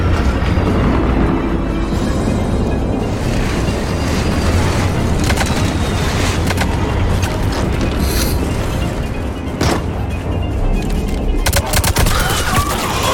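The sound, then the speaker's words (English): Gunfire from many different guns crackles continuously in a video game battle against husks. Dense overlapping shots and sharp bursts ride over a low rumble throughout. “We're shooting up a bunch of husks. Everyone's shooting different types of guns according to their racial defaults.”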